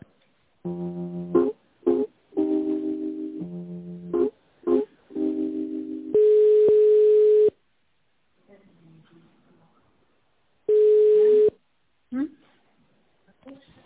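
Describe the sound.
Telephone line tones while a call is transferred between office extensions: a narrow, phone-quality series of short electronic beeps and chiming notes, then two long steady pitched tones separated by a quiet gap.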